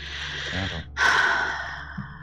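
A single deep breath drawn in through the body, an airy, rushing inhale of under a second that swells loud and fades gradually, with faint breathy sounds just before and after.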